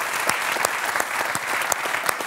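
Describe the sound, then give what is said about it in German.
An audience applauds in a dense, continuous patter of many hands, with a few sharper individual claps standing out at irregular moments over the steady roar. “Applaus.”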